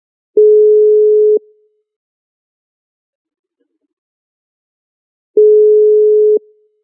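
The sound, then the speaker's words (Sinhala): Telephone line tone heard while a phone call connects: two steady, mid-pitched tones, each lasting about a second, separated by roughly four seconds of silence. No voices. “අපි බලමු දුරකථනයෙන් සම්බන්ධ කරගන්න”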